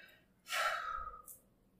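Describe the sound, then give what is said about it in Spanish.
A single deep breath taken during a guided meditation: a soft, airy rush that swells quickly and then fades over about a second, heard alone without any talk. “Inhala y exhala conmigo.”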